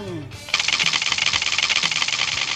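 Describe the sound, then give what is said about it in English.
The spinner wheel of a Game of Life board game whirs with fast, even ticking that slowly loosens as it spins down; a brief voice comes just before the spin. “we're going to spin that wheel from the Game of Life and see what year we are going to go to. You ready? All right. We both have to spin it at the same time.”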